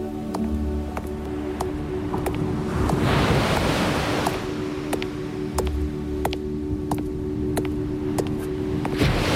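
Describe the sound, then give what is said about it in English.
Waves break against the rocks on which a castle is built: a continuous rushing surf that swells louder around the middle, with a steady, regular ticking running through it. “Le bruit des flots se brisant contre les rochers sur lesquels est bâti le château arrivait plus distinctement”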